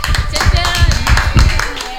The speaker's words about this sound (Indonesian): Tepuk tangan.